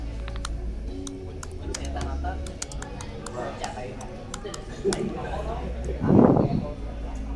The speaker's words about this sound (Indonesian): Bentar, kita Google. Airingnya Berapa, Mang? Bentar ya. Nih kita ngetik